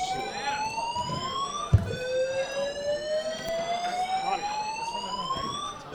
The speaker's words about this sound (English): apparently the vaping has set off the fucking smoke alarms